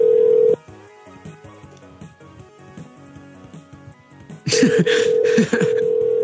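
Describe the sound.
Telephone keypad tones enter a default password such as 1234. A steady tone opens, talk follows, then a few short, loud beeps sound near the end.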